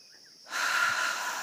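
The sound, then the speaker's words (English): A deep breath taken together by a group during a guided healing meditation: near-silence, then one long airy inhale or exhale swells up about a third of the way in and holds steady to the end. “we're grateful and thankful right now to take this holy breath together”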